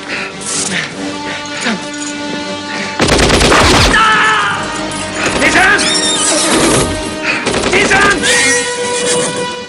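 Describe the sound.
Horses neighing and whinnying during a violent fight outside a compound. High, shrill whinnies repeat over dense, loud rumbling noise, punctuated by sharp blasts.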